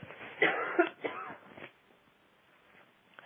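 A short bout of coughing from a tickle in the throat, a few harsh hacking bursts close together, followed by quiet.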